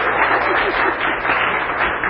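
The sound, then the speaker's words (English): A round of applause from an audience: loud, thick clapping that keeps an even level from start to finish. “Could I get a round of applause for just a minute?”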